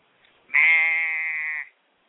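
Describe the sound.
One sheep's bleat rings out alone: a single loud, wavering, nasal cry that holds about a second, then breaks off into silence.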